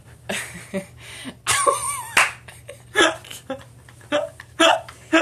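A stomach rumbling gives a brief wavering, gurgling squeal, set among several short clicks and bursts of sound.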